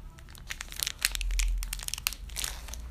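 A foil trading card pack wrapper, a Celebration pack, crinkles and tears open in loud, dense bursts of crackling, with sharper rips in the middle and no talking.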